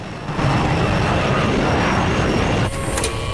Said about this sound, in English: Flynn presses a button and the dumb waiter descends to the cargo hold as the plane carries on into the night.